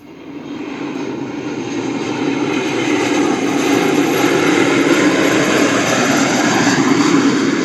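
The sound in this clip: An airplane's engine roar, a broad rushing drone that builds in loudness over the first few seconds and then stays loud and even.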